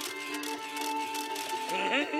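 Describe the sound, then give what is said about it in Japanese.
A camera shutter clicks as a photo is taken, a few quick sharp clicks over a steady tonal background. “お嬢ちゃん、写真を撮らせてもらうぜ。”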